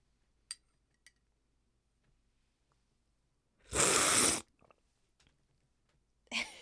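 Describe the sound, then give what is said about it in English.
Loud slurping of coffee during a coffee cupping: one long, hissing slurp stands out after near silence and a few faint clicks, and a second slurp begins at the end. “This is my favorite part of a cupping because the whole room just gets so loud. But this is what it sounds like. This is how you taste coffee.”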